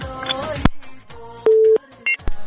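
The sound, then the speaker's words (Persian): Short telephone line tones as the next caller is connected, following a moment of voice and noise: a steady mid-pitched tone holds briefly, then a shorter, higher beep sounds. “تماس قطع میکنیم، میریم یک تماس بعدی را وصل میزنیم”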